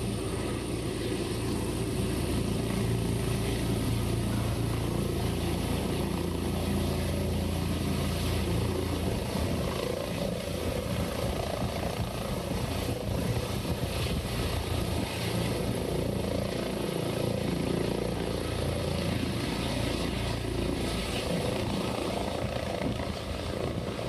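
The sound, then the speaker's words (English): Aircraft taking off at HAI, a loud, steady roar of engine and rotor or propeller noise that holds at an even level for the whole stretch, with no voices. “we've got a short video that we'd like to show of the aircraft actually taking off from HAI from last year”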